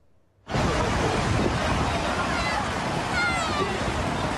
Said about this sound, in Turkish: Bartın'da çok sayıda kişi dev dalgalara rağmen denize girdi.